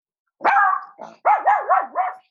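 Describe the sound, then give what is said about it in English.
A Chiweenie barking in a quick series of sharp, high-pitched yaps, some stretching into wavering, whiny tones. “mad dog. I'm so sorry. That's my Chiweenie. Chiweenie. That's my Chiweenie.”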